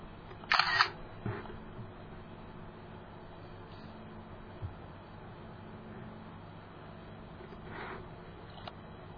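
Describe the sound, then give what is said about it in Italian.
Camera shutter sound as a screenshot is taken on a computer, one short, sharp click near the start, then faint hiss with a few small ticks. “Sto prendendo una foto di questa porzione di schermo.”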